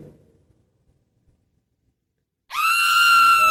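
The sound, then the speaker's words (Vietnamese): A single loud, piercing scream from someone outside behind a house breaks in after near silence, holding a steady high pitch to the end. “Có tiếng ai hét ở ngoài nhà sau.”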